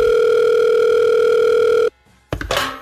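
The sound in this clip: A steady telephone tone plays while a call is being placed. One unbroken, even hum holds for about two seconds, then cuts off sharply, followed by a brief click and a short burst of noise.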